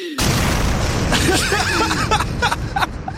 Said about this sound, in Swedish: Gillar att det avslutas med en fet explosion.